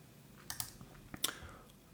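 Faint typing and clicking on a computer while an email is opened: a few soft, irregular key and mouse clicks spread across a quiet moment.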